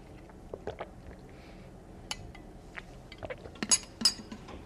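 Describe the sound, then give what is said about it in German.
A sip of a drink, with small wet mouth noises and light clinks of a glass or cup, scattered soft clicks that grow busier toward the end. “Ich trinke noch einen Schluck.”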